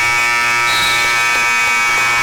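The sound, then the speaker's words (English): A loud basketball buzzer sounds at the end of the third quarter of a women's game. It is a harsh, steady electronic drone that holds unbroken for the whole moment. “Summer looking for that buzzer. Doesn't get it. Lynx at 27, Lady Eagles 48. And that'll be the end of the third.”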